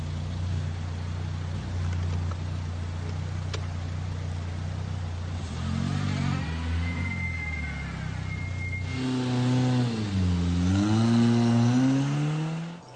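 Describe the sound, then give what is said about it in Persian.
A car engine hums low and steady while idling, then surges twice with rising pitch as the car drives off. The engine stays loud throughout. “پسر توی ماشین به موبایلش نگاه میکنه، بعد حرکت میکنه.”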